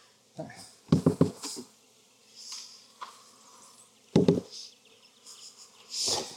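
Honey bees buzz around hives that are being shaken to find the queen. A steady insect drone is broken by a few sharp, loud bursts of shaking.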